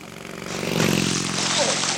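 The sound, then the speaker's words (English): A motorbike speeds past, its buzzing engine drone swelling to a peak midway and then easing off slightly. “Hey! You on the motorbike! Don't go so fast!”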